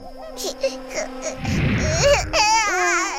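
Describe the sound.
An infant cries in rising and falling wails with bright harmonics, broken by a rough, noisy burst midway, then ends in strained, wavering sobs.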